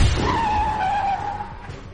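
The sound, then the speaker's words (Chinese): A long-distance bus skids and brakes after a tyre blowout, giving a sharp, high tyre screech held steadily for most of two seconds over a low rumble. “车爆胎了。司机猛打方向盘，但是慌乱中司机踩错了刹车，失控的汽车向站台的方向撞去。”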